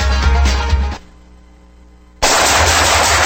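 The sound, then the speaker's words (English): Loud bursts of rapid automatic gunfire: a dense stretch of shots, a brief lull, then another abrupt, equally loud burst. “Nice shooting.”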